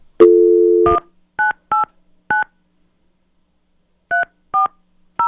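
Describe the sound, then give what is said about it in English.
Telephone keypad dialing: a steady dial tone, then a string of short, evenly loud key tones in two groups separated by a pause. “I gotta dial fast.”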